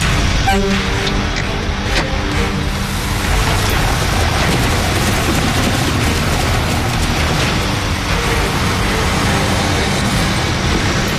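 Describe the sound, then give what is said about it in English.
A vehicle drags three loader tires along a roughed-in dirt road to flatten it, making a loud, continuous, grinding rumble of engine and scraping rubber that stays steady throughout. “Got those three loader tires behind me as a drag to flatten the road.”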